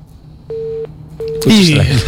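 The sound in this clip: Two short, steady telephone busy tones sound from a dropped call line, evenly spaced over a faint low hum. A voice then begins talking.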